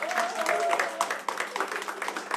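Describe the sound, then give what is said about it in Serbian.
Applause at a kafana-style evening music show, given for the keyboardist and other members of the band. Rapid, crackling claps from the crowd are joined by a sustained voice near the start. “jedan veliki aplauz, molim vas.”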